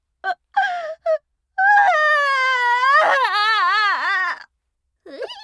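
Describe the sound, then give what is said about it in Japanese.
A woman crying: three short, sharp sobs, then one long, high, wavering wail that drops in pitch as it fades, and a brief whimper at the end. “泣いちゃった？”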